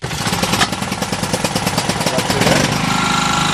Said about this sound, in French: L'électricité vient de se couper au PK10. Michel Didier Kobe vient aussi de démarrer son groupe électrogène.